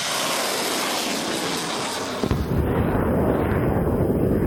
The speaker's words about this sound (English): The Mirsas launched their missiles one after the other.